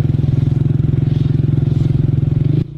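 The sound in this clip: A vehicle pulls up and stops under a tree on arrival at an agricultural science centre in Tindivanam. Its engine chugs in a rapid, steady low pulse, then cuts off abruptly just before the end.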